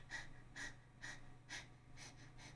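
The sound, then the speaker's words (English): A person imitates a dog's panting in a breathing exercise, pushing six short, light puffs of air against the roof of the mouth. The breaths come in an even, steady rhythm, soft and airy over a faint low hum. “Please bathe the roof of your mouth with light little tufts of air, and we call this exercise doggy panting. It'll sound something like this.”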